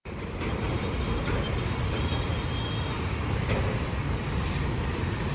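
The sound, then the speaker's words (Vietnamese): Container trucks and heavy lorries drive in a line along a congested road serving a port, giving a steady, dense low rumble of engines and tires that continues without a break. “dòng xe container, xe tải bắt đầu nối đuôi nhau chạy vào đường Nguyễn Duy Trinh từ vòng xoay Phú Hữu đến khu công nghiệp Phú Hữu và ngược lại.”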